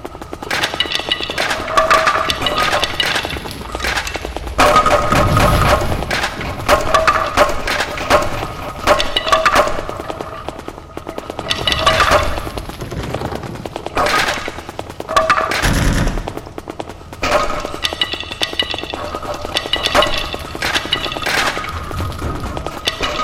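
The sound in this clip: Gunfire and grenade explosions in a survival video game: loud, continuous rapid cracks and pops, broken by heavier bursts that recur throughout.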